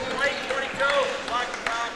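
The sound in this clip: A basketball is dribbled during a high school game, driven through traffic before a foul: a few sharp bounces over steady background noise, with squeaky high tones between them.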